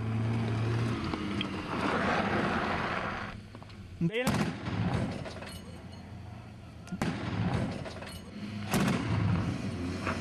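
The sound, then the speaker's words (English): Heavy weapons fire from Syrian army units striking militant hideouts on Al-Nisr mountain near Kasab: a sustained rumbling roar of blasts with a sharp, loud report near the middle and further surges later, with a voice speaking over parts of it. “There, the army strikes with heavy weapons the hideouts of militants.”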